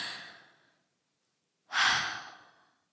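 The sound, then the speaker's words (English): A slow, deep breath: a soft airy rush of air fades out, then after a short silence a stronger, breathy exhale swells and dies away, heard alone without any talk. “So I'm going to take a deep breath, and I honestly want you to do that too.”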